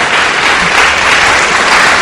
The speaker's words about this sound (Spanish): Aplauso para Trigo, ha estado presente.